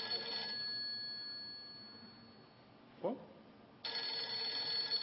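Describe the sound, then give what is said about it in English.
A cell phone ringtone goes off in a church, ringing in two short bursts, one at the start and one near the end, with a brief thump between them. “Wait a minute. That's my phone. Oh, excuse me. I know you're not supposed to have a cell phone on church, but let me get this.”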